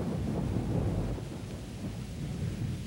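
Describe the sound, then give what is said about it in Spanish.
Deep, continuous rumbling thunder of an approaching storm under an overcast sky, a steady heavy roll without sharp cracks, mixed with a broad hiss like rain or wind. “El cielo está encapotado y la bruma cubre las montañas que rodean la ciudad. Amenaza tormenta.”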